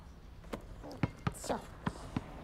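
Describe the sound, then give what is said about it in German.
Several sharp thuds of a basketball being thrown at a hoop come in an uneven rhythm, separated by quiet gaps, with faint voice-like sounds between them. “Ja, Elmo, versuch doch mal, den Korb zu treffen.”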